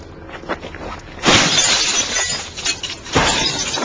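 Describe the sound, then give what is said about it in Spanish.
Glass shattering as a thrown stone breaks a streetlamp at a factory: one loud crash with a trailing tinkle, then a second crash near the end. “Rompe otra farola de la jodida fábrica.”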